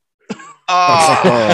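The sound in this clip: A voice imitates a swimmer gasping for air: a short breathy intake, a brief pause, then a longer strained, voiced sound.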